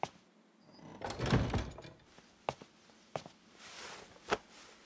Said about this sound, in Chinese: 小二轻轻叩门，房门打开